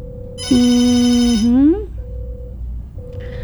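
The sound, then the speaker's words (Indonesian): An electronic telephone ringtone: one loud, buzzy harmonic tone held for about a second before bending upward and cutting off, with a quieter steady beeping tone running beneath and continuing afterward. “Ring, ring. Oke. Urang tampi heula.”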